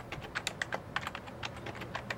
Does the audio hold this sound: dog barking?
no

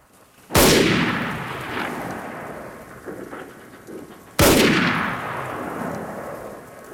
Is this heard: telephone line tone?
no

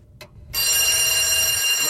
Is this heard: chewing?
no

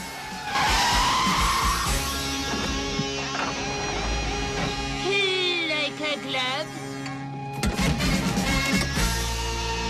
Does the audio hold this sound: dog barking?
no

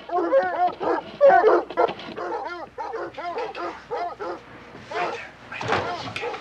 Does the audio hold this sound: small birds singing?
no

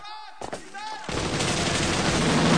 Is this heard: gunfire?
yes

